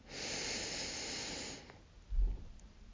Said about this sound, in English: Let's do that about 3 more times together, just like that. Breathe in.